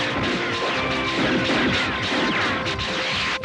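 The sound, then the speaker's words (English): A cassette player is smashed, making a dense burst of cracking, thudding and clattering impacts. The noise stays loud and busy for the whole clip. “Oh, the music's going down. Oh, he broke his cassette player.”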